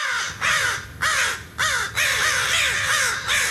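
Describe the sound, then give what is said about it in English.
An American crow caws in a series of harsh, raspy calls with short pauses between them. The calls are loud and clear over faint background noise. “Here is David Bird now to tell us all about the American crow”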